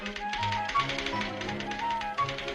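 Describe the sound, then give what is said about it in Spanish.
Typewriters clatter in a newsroom at Madrid's Palacio de la Prensa, home to the magazine La Codorniz: dense, rapid, overlapping keystrokes that run loud and steady throughout, with no talk. “Mira, ahí están sonando las máquinas de escribir. Ese era el sonido, ¿verdad, Nieves? Que durante mucho tiempo hubo en el Palacio de la Prensa, en las redacciones.”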